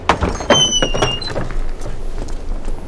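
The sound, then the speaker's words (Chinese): A locked detention room door being opened: a few dull knocking thumps and high, thin squealing creaks early on, then quieter shuffling. “就这儿了，财叔，把门打开。”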